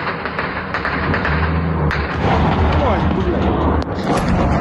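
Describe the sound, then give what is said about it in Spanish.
Artillery bombardment in the war in Ukraine: a few heavy, deep booms strike over a continuous loud, rumbling roar of shelling. “La ofensiva se recrudece especialmente por parte de Putin porque sus bombardeos han matado al menos 15 personas en Ucrania en las últimas horas. Beatriz Carmona. Así han sonado a ambos lados de la frontera este domingo.”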